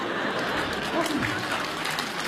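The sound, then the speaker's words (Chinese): Audience applause at a comic stage show, with the upper balcony clapping too: loud, dense clapping from a large crowd that runs throughout while a voice briefly speaks over it. “来点掌声好吗？哎呦，哎呀，楼上都鼓掌。”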